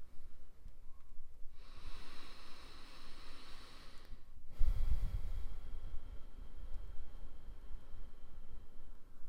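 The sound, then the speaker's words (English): Deep breathing during a seated relaxation exercise: a long, soft hissing inhale followed by a slower breathy exhale with a low rumble, quiet and steady with no talking. “Start with taking some deep breaths as you sit comfortably”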